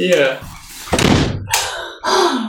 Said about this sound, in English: I didn't even hit that hard. Yeah, that door closes so easy.